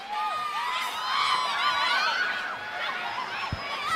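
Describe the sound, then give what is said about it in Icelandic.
Crowd cheering and whooping at a live evening show, a dense, sustained roar of many voices with shrill shouts, holding steady and loud throughout. “Wow. Þvílíkur mannfjöldi sem er hérna í kvöld.”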